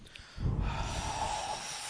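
Sharp inhale through the nose: a single rushing sniff starts after a short quiet moment, faint and breathy, then trails off into a soft hiss of air. No voices.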